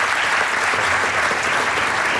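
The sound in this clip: Applause from an audience at a prize giving with trophy presentation: thick, steady clapping from many people that stays at an even, moderate level through the brief moment.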